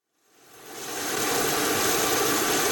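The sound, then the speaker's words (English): Steady jet-like roar of an aircraft on the tarmac during refueling with sustainable aviation fuel at a regional airport in Telluride, swelling from silence within the first second and then holding loud and even. “that's the sound of a plane with lower carbon emissions. The aircraft is refueling on the tarmac at the Telluride Regional Airport”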